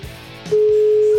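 An unanswered telephone call: after a brief low murmur, a steady single-pitched ringing tone cuts in about halfway through and holds unbroken and fairly loud to the end.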